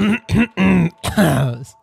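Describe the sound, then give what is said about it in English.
A person clears their throat in several short, voiced, grunting bursts with brief gaps between them. The sound is fairly loud and heard alone. “Starting off with a throat clear.”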